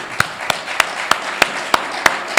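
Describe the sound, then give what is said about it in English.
Applause from an audience: a dense, steady wash of clapping with a few sharper, louder claps standing out at a regular beat. “One more round of applause for.”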